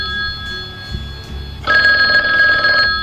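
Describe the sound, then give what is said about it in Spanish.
An old landline telephone rings with a loud, trilling electric bell in one sustained ring burst that starts abruptly after a quieter lead-in and then cuts off. “Este, por ejemplo, cuando sonaba, de hecho, no sabías quién te estaba llamando. Y no había nombre en la pantalla, tenías que cogerlo sin saber si era spam o no”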